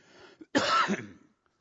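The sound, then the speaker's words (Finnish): A single harsh cough from someone with a lingering cough: one loud, rasping burst that lasts about half a second, preceded by faint breathy sounds and heard alone without talk. “Pahoittelut tästä yskimisestä. Mulla on vähän ollut tuota yskää tuossa.”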